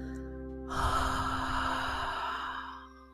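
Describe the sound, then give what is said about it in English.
A long exhale through a wide-open mouth, an airy breath that begins abruptly and fades gradually over about two seconds, set against a soft, steady sustained musical tone. “Opening that mouth wide and giving a nice long exhale,”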